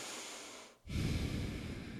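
A breath drawn through the nose, heard alone as a soft airy rush. It fades into a brief pause, then a louder, rougher breath follows to the end.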